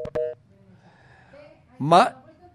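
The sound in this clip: A telephone line tone sounds as a listener's call drops during a radio call-in show: a brief steady electronic tone with sharp clicks at the start, followed later by a short burst of voice.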